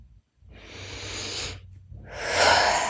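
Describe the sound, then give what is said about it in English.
A deep breath is taken and released: a long, hissing inhale, a brief pause, then a fuller, louder breathy exhale, heard alone without talk. “Deep breath.”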